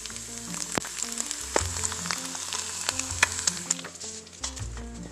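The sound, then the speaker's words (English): An egg fries in a pan for breakfast, giving a continuous sizzling hiss broken by scattered sharp pops and crackles. No one talks. “I'm also cooking an egg for breakfast.”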